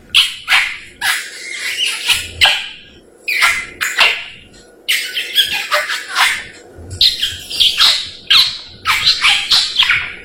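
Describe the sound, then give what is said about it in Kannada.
A parrot squawking: many loud, harsh, high-pitched squawks in rapid bursts with short gaps, some calls rough and bark-like. “ದಾರಿಯಲ್ಲಿ ಹೋಗುವಾಗ ನನಗೆ ಒಂದು ಗಿಳಿ ನೋಡಿದೆ. ಆ ಗಿಳಿ ಈ ರೀತಿ ಕೂಗುತ್ತಿತ್ತು.”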